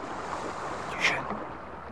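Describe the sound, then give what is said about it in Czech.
Oars rowing a boat on water: a continuous wash of water and wind noise runs throughout, with one brief, brighter splash near the middle. “Vesla. Někdo jede lodí.”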